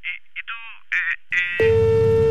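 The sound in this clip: A telephone busy tone after the caller hangs up: brief voice sounds, then a loud, steady single-pitch tone that continues unbroken.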